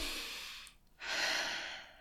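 A deep breath, heard as two long, airy, fairly loud breath sounds separated by a brief quiet pause, alone without talk.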